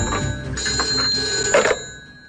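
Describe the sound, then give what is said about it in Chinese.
An office telephone rings urgently: a bright, buzzing electronic ring with steady high tones runs for about two seconds and then stops. “两分钟以后，田辽沈办公室的电话急促地响了起来。”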